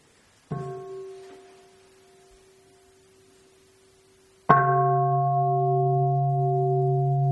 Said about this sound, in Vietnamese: Mời đại chúng thưởng thức một tiếng chuông.